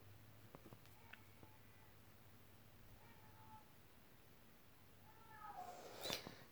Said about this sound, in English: Yeah, that's my cat.